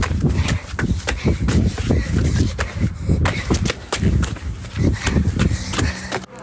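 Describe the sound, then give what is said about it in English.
A child's running footsteps pound along a lane in fast, steady, loud thumps that carry on almost without a break, with only a brief dip midway. “So I'm going to ask my mum if she can hold my skateboard and I'm just going to run.”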